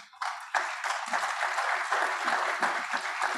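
Audience applause that swells in quickly over the first half second, then carries on as a full, steady crackle of clapping.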